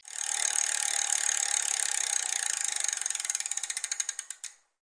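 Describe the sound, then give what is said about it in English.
A prize wheel spins against its ratchet, giving a rapid, even clicking that gradually slows into distinct, widely spaced clicks before the wheel stops. “We need to spin the wheel.”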